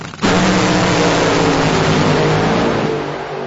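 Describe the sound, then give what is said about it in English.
A drag racing car's engine roars at full throttle at a drag race event. A harsh, loud, steady blast bursts in after a brief quiet start, holds for about three seconds, then eases slightly at the end. “These road rockets fly down CMAX Dragway at 330 miles per hour.”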